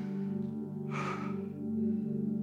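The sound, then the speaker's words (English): A deep breath drawn in together by people during a church prayer: one broad, breathy rush lasting about half a second, set over steady, sustained musical tones that continue throughout. “Just everyone just do this with me. Just take a deep breath.”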